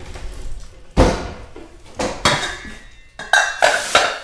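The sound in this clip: Pots, dishes and cutlery clatter as lunch is cooked at home, with many sharp metallic clanks and knocks coming at irregular intervals over a low background.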